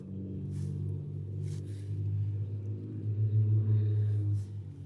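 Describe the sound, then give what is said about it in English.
A loud car passes outside as a deep, heavy rumble that swells gradually, peaks near the end and then starts to drop, with no other clear sound on top. “I promised myself I was not going to comment on loud cars anymore. I was just going to ignore them. But that was like a, I don't know how well that's going to come across, but that was like a freaking helicopter.”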